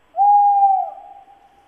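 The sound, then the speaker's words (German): A tawny owl gives a single long, clear hoot that holds a steady mid pitch, then trails off softly with a faint, wavering tail, heard alone with no other sounds. “Ein neues Geräusch. Das würde mir nachts im Wald einen Schauer über den Rücken schicken. Der Waldkauz.”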